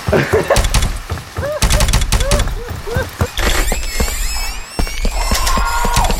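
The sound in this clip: Video game gunfire in rapid, sharp bursts, heard under loud, excited talk from people playing, with other game sounds mixed in.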